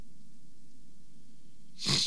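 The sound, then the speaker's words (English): A single sharp snort blown straight into a microphone, a short breathy burst that comes only at the very end after near silence. “I'm snorting into the microphone a little bit.”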